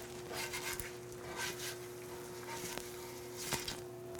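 Faint, steady sizzle of an egg frying in a pan for a fried egg sandwich, with a few soft clicks and scrapes.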